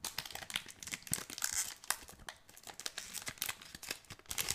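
Crinkling and tearing of a pack of trading cards being unwrapped: dense, continuous crackling with many sharp bursts of wrapper noise throughout, no voices.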